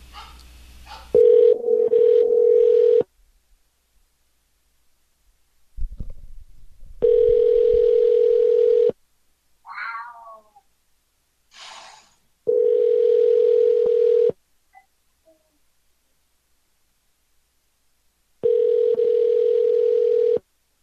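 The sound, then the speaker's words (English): An outgoing telephone call ringing through: four long, steady ring tones, each lasting about two seconds, separated by pauses that hold a few brief, faint sounds. “All right, calling her right now.”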